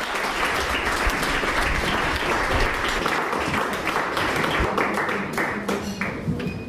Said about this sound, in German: Darum bitte ich jetzt gleich um einen kräftigen Applaus für Jürgen Busterloh und Jan Behmens.